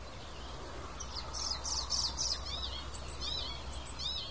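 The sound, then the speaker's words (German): Birdsong with a magpie's chattering mixed in: many quick, high chirping phrases repeat over a steady low hum, fairly faint throughout. “Das ist fast ein Tschackern noch von einer Elster da eben mit drin.”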